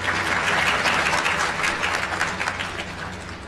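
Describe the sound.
Sustained audience applause at an academic ceremony awarding gold medals to MA graduates: dense, steady clapping that fills the whole stretch without pause, tapering only slightly toward the end, with no speech over it.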